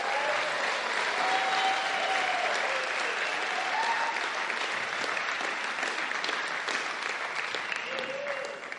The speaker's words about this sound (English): Are you clapping for Hannes going or Byron staying?